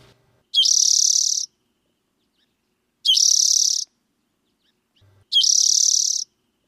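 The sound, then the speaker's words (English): Three buzzy songs of a spotted towhee, a large sparrow. Each is a high, dry, rasping burst about a second long, evenly spaced with silence between. “That was the buzzy song of the spotted towhee.”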